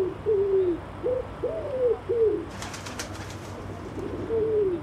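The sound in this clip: Pigeons coo by a stone monument, a series of soft, low, rolling calls repeated in short phrases with brief pauses between, fairly quiet and with no talking.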